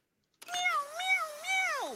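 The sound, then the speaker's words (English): A cat meows once in a single drawn-out, tonal call that wavers up and down in pitch and drops sharply at the end. The meow is fairly quiet and heard alone after a short silence. “Meow, meow, meow! What's that? He wondered.”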